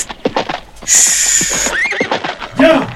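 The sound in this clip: Mules neighing in a loud, shrill burst of whinnying, with a wavering, harmonic cry that swells and breaks off, followed by another rough neigh near the end.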